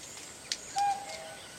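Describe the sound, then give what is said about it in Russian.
A common cuckoo calls near a forest campsite, a single clear, mid-pitched note that fades out, preceded by a faint click in otherwise quiet surroundings. “Девушка, услышав кукушку, смотрит вдаль. Кукушка, кукушка, сколько мне жить?”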